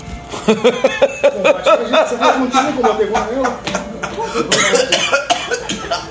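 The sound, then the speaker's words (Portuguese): Repeated dry coughing from a person with a dry throat: many rough, uneven bursts come in quick succession and are mixed with other vocal noise over a steady, busy background. “Ah, minha garganta está seca, eu estava petrificado.”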